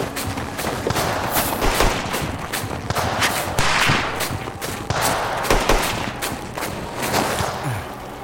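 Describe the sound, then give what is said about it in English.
Gunfire crackles through a firefight in the snow, many sharp shots and overlapping bursts packed densely together and continuing loudly from start to finish. “Return fire! Quickly, move up to those rocks!”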